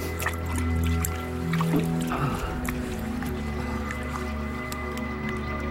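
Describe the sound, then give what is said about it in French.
Water trickles and drips inside a cave, with many small irregular drops and splashes over a steady low tonal drone. “Écoute! L'eau! C'est bizarre!”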